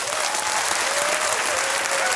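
Audience applause at a live comedy show as the crowd votes by clapping. A dense, even wash of many hands clapping holds steady and fairly loud for the whole stretch.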